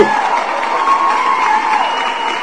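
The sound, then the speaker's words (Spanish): Short applause sound effect: crowd clapping mixed with cheering, dense and steady, lasting about two and a half seconds. “También tú, te mereces un aplauso. ¿Qué pasó con los aplausos?”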